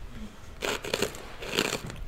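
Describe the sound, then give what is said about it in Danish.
Crisp crunching of potato chips being eaten, in two separate bursts of dry, crackly chewing with quiet gaps around them and no talk. “Nu står du bare og spiser chips, jo. Øh, jeg tænker bedst, når jeg spiser chips.”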